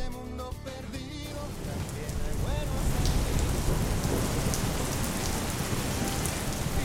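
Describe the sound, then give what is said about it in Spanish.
Rain pours down with thunder rumbling beneath it, a dense, steady hiss and low roar that takes over after a short stretch of music at the start. “¿Qué pasa? ¿Está lloviendo? ¿Se viene la lluvia?”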